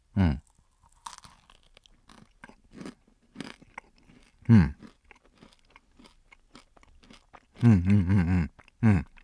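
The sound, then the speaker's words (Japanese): Chewing and biting into a marshmallow with a matcha-like filling, heard as several loud, short bursts of mouth noise with quieter smacking between them, ending in a dense cluster of chews and one final bite. “上なんだこれ、マシュマロかな。あれ？中がね、抹茶っぽいものが入ってるね。ちょっともう一口食べてみよう。”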